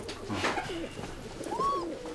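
Kept homing pigeons coo softly, giving a few low, throaty, warbling calls over a faint steady background hum.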